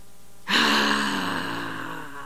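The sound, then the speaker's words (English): A group exhales loudly together after holding a deep breath drawn in through the nose during a breathing exercise. The breathy whoosh starts abruptly and is loudest at first, then tapers slowly over about two seconds. “So let's breathe in through the nose. Hold it. And then breathe out with noise.”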